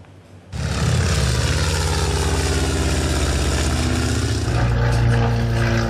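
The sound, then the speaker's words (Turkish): Historic aircraft fly in formation at the Sivrihisar air show, producing a loud, steady, droning engine roar that starts abruptly and holds constant throughout, with no voices. “Tarihi uçakların kol uçuşu ilgiyle izlendi.”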